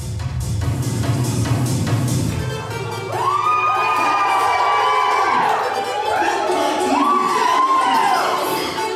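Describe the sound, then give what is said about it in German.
Crowd cheering and shouting at a sober dance party without drugs or alcohol, in a small hall of the Lübeck music and congress hall. Loud, continuous massed noise with a few high whooping cries rising above it. “Klingt wie 2.30 Uhr nachts in einem Berliner Elektroclub. Es ist aber 21:30 Uhr abends in einem kleinen Saal in der Lübecker Musik- und Kongresshalle.”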